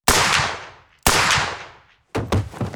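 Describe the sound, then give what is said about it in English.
Pistol gunshots ring out: three loud, sharp reports, each trailing off in a decaying tail, spaced about a second apart, with the last burst rougher and more broken up. “Is that a gun? Oh, God, don't shoot!”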